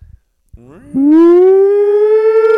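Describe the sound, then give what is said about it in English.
A voice imitates a siren, sliding upward in pitch and then holding a loud, steady, bright wail after a brief soft onset. “Let's do a siren.”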